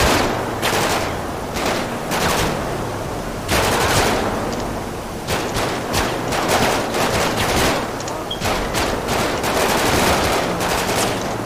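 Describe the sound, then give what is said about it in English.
Gunfire in a police video game shootout: loud bursts of rapid shots and crackling volleys come in several clusters with brief gaps, and no voices are heard. “Oh, shots fired, shots fired.”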